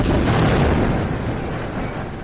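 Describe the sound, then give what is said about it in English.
An airstrike explosion blowing apart an apartment building: a loud, sustained, deep rumbling roar that fills the whole clip and eases only slightly in strength toward the end. “The apartment building of nearly 50 residents from 8 families was blown apart by an Israeli airstrike.”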